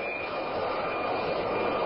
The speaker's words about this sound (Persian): یک جت فالکون ایرانی در فرودگاه بغداد به زمین می‌نشیند.